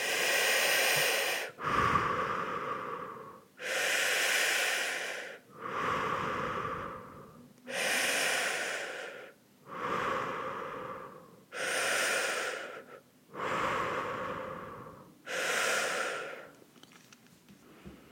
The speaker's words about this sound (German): Also ich mache es mal kurz vor. Äh, ich mache das in der Regel immer beides durch den Mund, also ein Einatmen und Ausatmen ohne Pause.